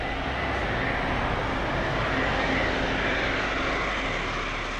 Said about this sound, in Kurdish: گوێتان لەم دەنگەیە ئەمە دەنگی فڕۆکە سەربازیەکەی لۆیت ئۆستن وەزیری بەرگری ئەمریکا